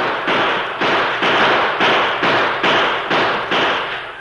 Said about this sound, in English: they opened up with their six guns